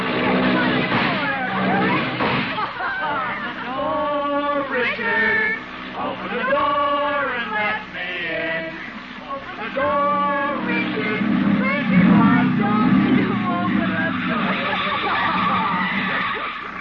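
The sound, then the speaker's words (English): Hot rod engine, a hopped-up jalopy, revving in repeated surges whose whining pitch climbs and falls, loud and continuous, with a rougher, noisier stretch toward the end. “She is sitting in the front seat of a hopped-up jalopy, or hot rod”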